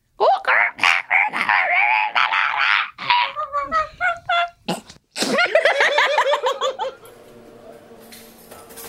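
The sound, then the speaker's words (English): A human voice imitating the call of a blue-winged kookaburra: long, rapid runs of harsh cackling and honking notes in uneven bursts, loud throughout, then trailing off into quieter sound at the end. “There's totally different kookaburras, not like the ones down south. These ones got blue wings and the blues, oh, it's like a metallic blue and they sound like this.”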